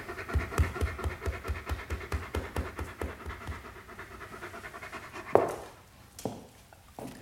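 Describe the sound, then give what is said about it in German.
Two dogs pant rapidly and rhythmically after attacking an intruder in a house. The quick, even breaths are loud at first and then fade, followed by a sudden sharp scraping knock and a few softer sounds. “Die Hunde haben ihn zerrissen.”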